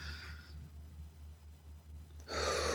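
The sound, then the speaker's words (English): A deep breath drawn in during a guided breathing prayer: after a quiet stretch over a low steady hum, one loud, airy inhalation comes at the end. Nobody speaks. “Breathe in, God.”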